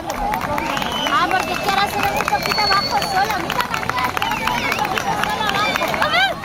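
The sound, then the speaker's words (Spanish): A crowd on La Victoria beach in Cádiz reacts to a historic moment. Many excited voices shout and cheer, blending into a loud, continuous babble that fills the whole clip. “miles de andaluces siguieron desde distintos puntos de la comunidad, como las playas, dejándonos imágenes inolvidables y sonidos como estos en la playa de la Victoria de Cádiz.”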